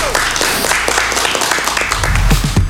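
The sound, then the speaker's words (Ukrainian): Short burst of applause, many hands clapping loudly and quickly in a dense, uneven patter that carries on to the end. “Друзі, ще раз оплески.”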